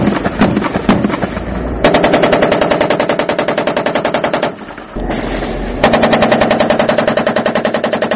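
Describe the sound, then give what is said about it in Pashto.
Heavy automatic gunfire rages in a battle around a village turned into a fortified position, with rapid, hammering bursts that run almost without pause, dip briefly midway, then resume just as loud and relentless. “د دواړو طرفونو څخه یو پر بل پریمانه ډزې کیږي، ځکه خو سرتیری په خپل منځ کې خبرې نه اوري.”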